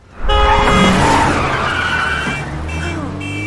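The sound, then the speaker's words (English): Loud, sustained tire screech as a vehicle speeds through a city intersection and nearly collides with an SUV, bursting in abruptly and squealing for about three seconds over a heavy engine roar. “A vehicle speeds through an intersection in front of her and nearly collides with hers.”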